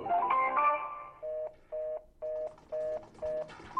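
A telephone line tone sounds after a caller's line drops: five evenly spaced, steady mid-pitched beeps, preceded by a brief jumble of louder tones.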